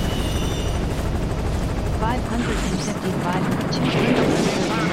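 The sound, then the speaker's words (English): Helicopter in a base-defense video game, a steady, dense rotor drone running throughout with a voice talking over it. “That's a helicopter.”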